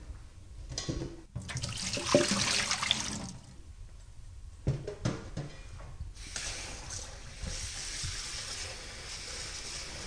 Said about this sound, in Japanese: 2、3分経ったらザルにあげて冷水にとってください。